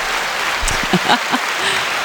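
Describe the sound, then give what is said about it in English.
An audience breaks into applause, a steady, fairly loud wash of many hands clapping that holds at an even level throughout. “Can we get some applause?”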